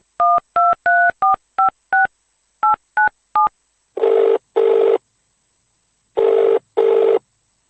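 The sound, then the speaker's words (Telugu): Touch-tone keypad beeps as a telephone number is dialed for a call: nine short, crisp dual tones in a quick, uneven run, then a pause and two pairs of longer, buzzing ringing bursts, with no voices. “Phone చేద్దాం.”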